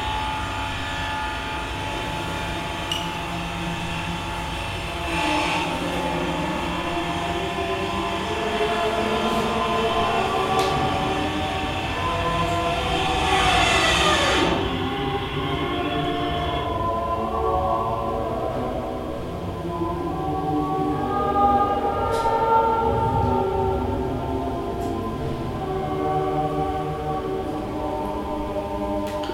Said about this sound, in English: Later, I learned that it was the sound of the so-called wake vortex breaking off. The wake vortex or wake turbulence are kind of a pair of horizontal tornadoes following